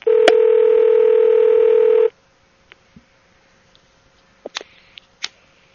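A steady telephone dial tone holds for about two seconds while a free call is placed, then gives way to near silence broken by a few faint, brief tones and clicks.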